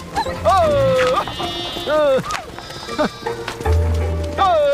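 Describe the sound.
A plump young lamb bleats several times, loud, wavering and nasal, with calls that rise and fall in pitch, while people talk over and between the bleats.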